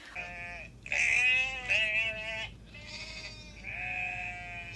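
Lambs bleating in several wavering, nasal calls, some drawn out and rising then dropping, one following another with short gaps.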